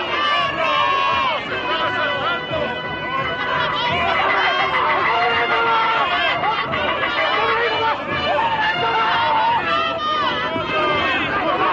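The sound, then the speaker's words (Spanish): Villagers running in panic through a village: a loud, dense crowd babble of many agitated voices and hurried movement, continuous and unbroken from start to finish. “Los vecinos corren despavoridos por el pueblo. Los samuráis salen corriendo de la casa del anciano.”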